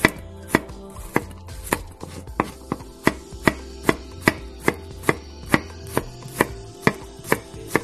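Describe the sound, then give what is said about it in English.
A knife thinly slices about a quarter cup of garlic cloves. Many crisp, evenly spaced cuts strike the board at roughly two per second, each a sharp click that fades quickly, with no voices. “Okay, now we're going to take about 1/4 cup of garlic cloves. We're going to slice these nice and thin.”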